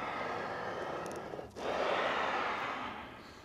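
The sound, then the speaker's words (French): Air rushes through the bellows of an accordion with a soft, breathy whoosh like slow breathing. The sustained airy hiss thins briefly near the middle, then swells again and slowly fades. “dites-nous pourquoi l'accordéon est un instrument, mais vraiment écologique. Ah ben d'abord, c'est un instrument qui respire. Écoutez.”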